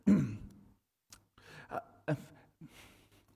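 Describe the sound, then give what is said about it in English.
A person clears their throat, starting with one loud, rough burst followed by a few shorter, softer raspy vocal sounds with brief pauses between them. “Don't you hate when you get a little hick in your throat?”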